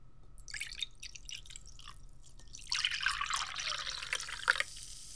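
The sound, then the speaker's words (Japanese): A drink poured from a freshly opened bottle into a glass, heard as a trickling, splashing stream that turns louder and denser in the second half, after a few faint clicks and taps. “先生が開けてあげるわ。で、先生が君のを注いであげて。”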